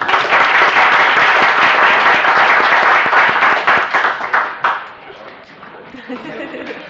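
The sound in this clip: Applause fills a legislative chamber, dense clapping for about four seconds before thinning to a few scattered claps amid murmuring voices.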